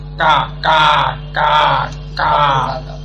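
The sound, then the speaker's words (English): A human voice imitates a crow's caw as Hindi-speaking crows are said to call, with four loud, drawn-out, nasal 'kwa' cries evenly spaced in a steady rhythm. “Hindi crows say kwa, Bengali crows say”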